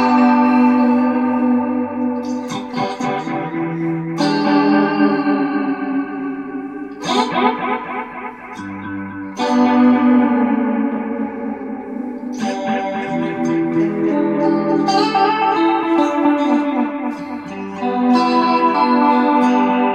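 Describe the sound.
Electric guitar played through a delay pedal set to a loose, outrageous setting. Loud sustained single notes and short phrases ring out, each trailing into shimmering echoed repeats that smear into one another.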